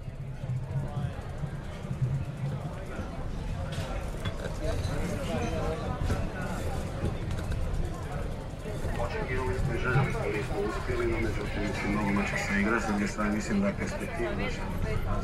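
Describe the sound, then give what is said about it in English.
Crowd in a city square after the Croatian football team's defeat, recorded while riding a bike: continuous overlapping voices and chatter over steady background noise. “This is how the square sounds after the defeat of the Croatian football team. Recorded while riding a bike.”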